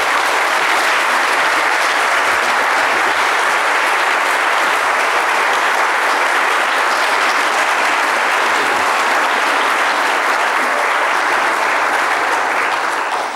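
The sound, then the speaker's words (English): Audience applause welcoming a guest lecturer at an evening lecture event, a loud, dense and unbroken wash of clapping that stays steady throughout. “So give a warm welcome this evening to Dr. Peter Kreft, our Colson Lecturer of 2007.”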